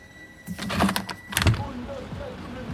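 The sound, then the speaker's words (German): A window being opened in an office: a roughly one-second burst of rattling and scraping with a sharper knock at the end, followed by a faint, quiet background. “Mart ist aufgestanden, hat das Fenster geöffnet und schüttelt die Kaugummischachtel”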